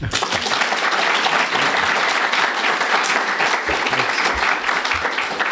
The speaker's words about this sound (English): at this point, let's give EJ a warm welcome.